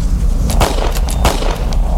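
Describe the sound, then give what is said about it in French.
Rifle shots fired repeatedly at an animal in a field: a few sharp cracks over a loud, continuous low rumble. “John lève son fusil en direction de la créature et lui tire dessus à plusieurs reprises”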